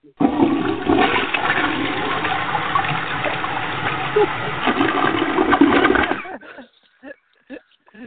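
A toilet flushes with a loud, steady rush of water for about six seconds, then cuts off abruptly, followed by a few short gurgling trickles as the bowl refills.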